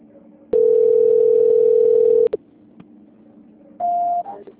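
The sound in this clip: Telephone call transfer tone: one steady, flat electronic beep lasting nearly two seconds, then after a pause a shorter, slightly higher tone, over a low background hum.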